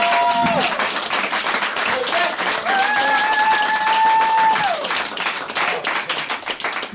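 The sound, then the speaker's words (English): An audience applauds a live performer and radio host as he is introduced on stage, with loud, dense clapping that holds steady and then thins slightly toward the end. “Please give a big round of applause for the real Hijinks!”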